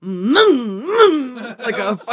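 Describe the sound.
A voice imitates a whiny tantrum noise: two loud wailing moans that rise and fall in pitch, followed by a shorter, rougher vocal sound.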